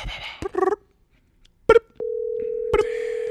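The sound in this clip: Telephone dialing: a few short keypad tone beeps, then a long, steady single-pitch line tone that holds to the end, with one more brief beep over it.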